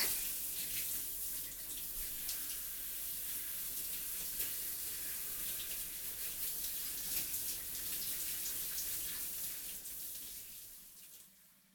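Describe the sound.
Hot water runs steadily for a bath as someone is rinsed, a continuous rushing hiss that holds for about eleven seconds before fading out at the end.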